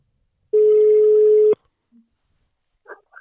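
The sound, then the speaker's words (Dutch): Telephone ringing tone on an outgoing call: one steady, even-pitched ring lasting about a second that ends abruptly, followed by near silence and a brief faint voice. “we gaan eens even kijken of hij bereikbaar is, als het goed is wel. Gaat hij over? Daar gaat hij.”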